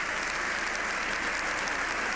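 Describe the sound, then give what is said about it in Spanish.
Dense, sustained applause from a standing ovation for the Pope in a congress chamber, a steady, loud wash of clapping with no breaks and no talk over it. “este aplauso y esta ovación de pie no acaban, no terminan.”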